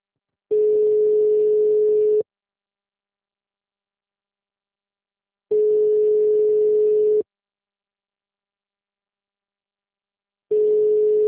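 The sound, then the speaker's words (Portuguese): A telephone busy tone sounds after a call fails to connect. It is a steady single-pitched hum in long even bursts separated by silent gaps of about twice their length. Two full bursts play, and a third begins. “Ligação gratuita. Não foi possível completar.”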